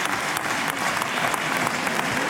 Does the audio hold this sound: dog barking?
no